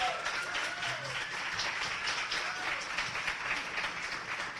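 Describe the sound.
Faint, steady applause from a live audience at the 2015 Festival of Arts and Ideas, an even wash of clapping with no clear breaks.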